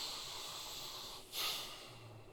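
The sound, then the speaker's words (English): A big breath taken during a holiday-season talk: one brief, hissing rush of air that rises out of steady low background noise and quickly fades. “Let's get a little breath, because this one's real important for us all here. Big breath.”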